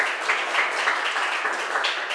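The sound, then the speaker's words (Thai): Dense, steady applause from a classroom of students clapping for a classmate's correct answer during a group quiz, an even patter of many hands without talk. “เก่งมากค่ะปรบมือให้เพื่อนหน่อย”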